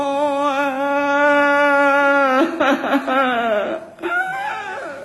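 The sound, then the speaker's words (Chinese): A voice imitates opera-style crying in a set pattern of three 'ha' sobs and one hooked wail. A long sustained wailing note breaks into shaking, sobbing phrases, drops out briefly, then the wail resumes. “那怎么哭啊？ 准是三哈和一勾啊。 那你给学一学。”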